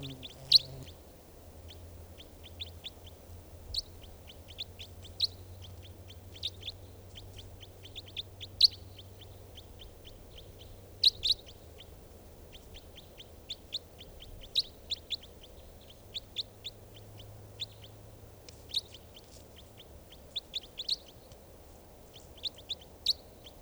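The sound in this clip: Bird calls outdoors: many brief, high chirps scattered irregularly over a steady low background hum and hiss, some calls louder than others.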